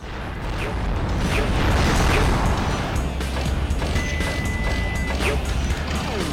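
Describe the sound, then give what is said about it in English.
Loud smashing and clanking from an anvil platform in a video game that rises slowly and then drops to crush the player, a dense, continuous mechanical crash that stays heavy throughout. “Here we got like an, an anvil platform that goes up slowly and then drops down to crush you.”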